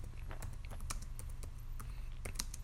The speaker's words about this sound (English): let me type that down.